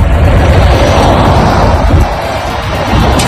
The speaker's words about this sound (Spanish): este es el sonido del fuego, el que están escuchando. Esta tarde se han evacuado dos municipios cercanos a la zona donde se ha iniciado ese fuego, en las Navas de San Antonio.